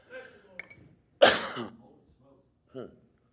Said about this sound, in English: Woo, I got choked. Excuse me.